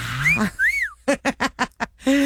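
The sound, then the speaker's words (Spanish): A person whistles a catcall, a two-part whistle of a short rising note and then a longer note that rises and falls, clear and alone. “para todas esas muchachillas de 100 y menos, ahí les va este chiflidito. Para que se acuerden cuando iban por la coca y le chiflaban.”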